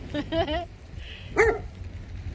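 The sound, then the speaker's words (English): Excited dogs bark and yip among goats on a farm, a few short, high-pitched bursts rising briefly over a low background rumble. “The dogs are a little bit excited. They kind of came out of nowhere because other people brought their dogs”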